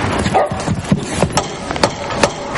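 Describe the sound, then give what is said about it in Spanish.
A dog released inside a house gives short, sharp barks and yips, several in a loose irregular run, over a background of shuffling and movement. “Cierra y suelta al perro.”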